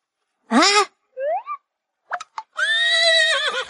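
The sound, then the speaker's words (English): Horses neighing as they enter their new stable: a short quavering whinny, a couple of brief squeals, then a long, sustained, wavering whinny, loud against silence. “Can we call the horses? The horses are entering their new house.”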